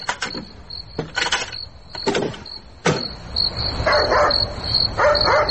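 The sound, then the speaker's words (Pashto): Knocking on a door in the middle of the night: a few sharp raps come in short clusters, with a steady, high insect-like chirr running underneath. “څه شی؟ دروازه ټکېږي؟ او دروازه ټکېږي.”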